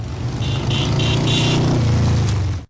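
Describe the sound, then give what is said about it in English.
Motorcycle engine rumble, a steady, loud low-pitched drone that holds for nearly three seconds before cutting off abruptly. “The sound of money? Yeah, the rumble of the bike.”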